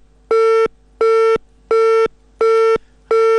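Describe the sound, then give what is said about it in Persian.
Telephone busy signal after a dropped call: five evenly spaced beeps, all at the same steady pitch, loud and alone, with short silent gaps between them and the last one cut off. “متاسفانه تماس آقای عبدو قطع شد.”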